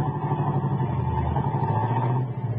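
A car driving off with a steady, mid-pitched engine drone that holds at an even level throughout and dips slightly near the end.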